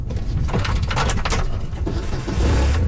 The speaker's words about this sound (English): We hop in a quad and drive to a wetland on the property.